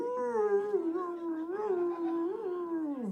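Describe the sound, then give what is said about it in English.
A man's voice imitates a dog howling on stage at a concert, holding one long, wavering, mournful tone for about three seconds. The pitch rises and dips a few times, and the howl trails off at the end. “it was one of my dogs. He thought I was crying when I was singing. And he hates to hear me cry, so he started crying with me, man.”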